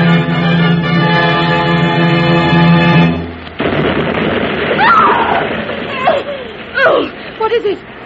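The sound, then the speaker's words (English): Rockets are shot up over a bay as a signal for a ship gone ashore. After sustained tonal music ends, a noisy rush follows, cut by a few whistling swoops and sharp bursts. “What happened, Mrs. Danvers? They're shooting up rockets. There must be a ship gone ashore in the bay.”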